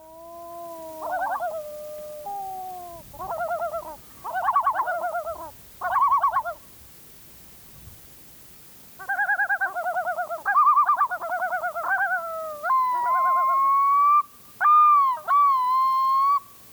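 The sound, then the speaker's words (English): A pair of red-throated loons calling to announce territory on a lake in Alaska's National Petroleum Reserve: loud wailing, warbling calls come in several bursts, ending in higher, drawn-out rising notes, with no voices. “This is similar to the red-throated loon recording we heard earlier. This is a pair announcing its territory on a lake just south of Teshekpuk Lake in the Teshekpuk Lake”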